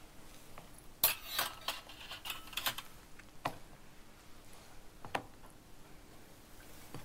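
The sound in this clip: A spoon stirs seasoning ingredients including salt together, giving a few faint clinks and scrapes at irregular intervals.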